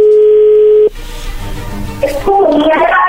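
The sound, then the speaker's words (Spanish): A single steady telephone tone holds for under a second and then cuts off as the call connects, giving way to line noise and a voice answering. “Y entró la llamada.”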